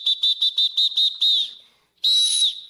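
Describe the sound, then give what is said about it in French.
A referee blows a whistle during a ball game: six quick, shrill high blasts, then a slightly longer one, and after a short pause a final sustained piercing blast. “il y en a qui continuent, ils continuent à jouer avec le ballon, puis là, t'entends l'arbitre faire...”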